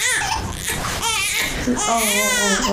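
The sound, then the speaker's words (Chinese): A hungry baby cries in loud, continuous wails that rise into strained, tonal sobs toward the end, with no other sounds standing out. “这咋又哭了呢？ 哎呦，真是， 这不饿了， 宝贝儿 啊，喂，不是你喂奶吧？饿了， 快给孩子吃一口啊，别让他这么哭啊。”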